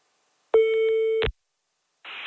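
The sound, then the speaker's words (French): A telephone line tone sounds while someone calls their mother: one steady mid-pitched tone lasting under a second, with clicks at its start and end, then a brief burst of hissy noise after a short silence. “On appelle la maman.”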